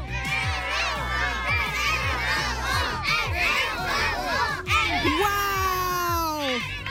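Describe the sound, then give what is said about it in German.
Crowd cheering and shouting at a celebration at the Spielvereinigung Oberkotzau sports club, with children's voices among many overlapping adult voices; loud, dense and continuous throughout. “Also Thomas, du hörst, es wird hier gefeiert.”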